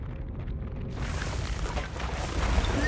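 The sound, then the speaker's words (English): Deep, rumbling explosion from a laser blast: a broad, sustained roar that swells after about a second and stays loud and turbulent to the end. “So with that laser blast from the Death Star, think of how sound doesn't travel as fast as light.”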